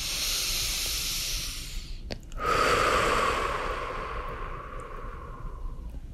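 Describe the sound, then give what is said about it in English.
A long, airy breath during a guided meditation, a hissing rush that runs about two seconds, breaks off briefly, then returns as a longer, softer airflow that slowly fades. “let's take that breath.”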